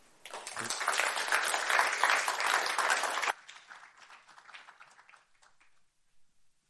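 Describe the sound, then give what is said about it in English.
A church audience applauds to welcome a pastor to speak. Dense, loud clapping lasts a few seconds, then drops abruptly to scattered, fading claps. “let's just give him a round, NCF welcome”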